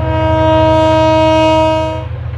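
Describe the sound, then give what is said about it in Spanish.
An approaching train sounds a loud, steady horn blast over a deep, rhythmic rumble that shakes the ground, the whole sound easing off near the end. “Y no va que venía el tren y ya se sentía como brumbeaba el suelo.”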